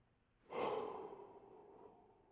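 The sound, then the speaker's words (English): A single deep breath, a soft, breathy rush that swells quickly and then fades slowly over about two seconds, faint and heard alone. “So do this for me. Take a deep breath.”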